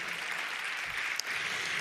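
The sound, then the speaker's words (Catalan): Audience applause, a faint, continuous wash of many hands clapping at an even level from start to finish. “Bueno, vull demanar un fort aplaudiment doble a en Josep Pagès, que ve des de Catalunya,”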